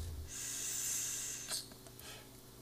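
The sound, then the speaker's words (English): A direct-lung inhale from a vape: a soft, airy, high hiss held for just over a second, ending in a brief sharper breath, then a faint exhale, all quiet with no talking. “Was that a direct lung inhale? Oof, cloudy.”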